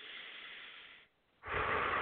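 A quiet breath in and out: a soft, airy inhale, a short pause, then a louder, fuller exhale.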